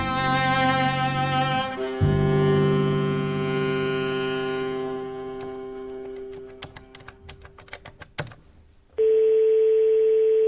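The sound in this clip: A telephone ringing with an incoming call: a loud, steady electronic buzzing ring cuts in at the end, after a stretch of faint clicks and a low hum.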